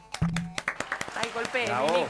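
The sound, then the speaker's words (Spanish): Restrained applause for a show's producer, a brisk patter of sharp claps that thins out as a voice begins speaking near the end. “Aplausos contenidos de emoción para nuestra productora”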